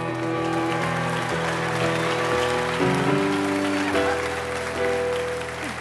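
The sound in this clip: Audience applause welcoming Governor Sarah Palin at a debate: a steady wash of clapping that runs under sustained musical tones shifting in steps.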